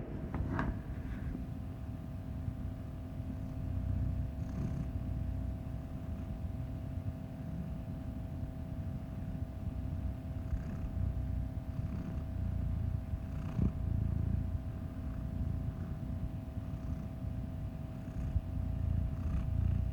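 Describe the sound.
A black cat purring steadily and softly in a continuous low rumble, alone and unbroken, with a faint constant hum beneath it.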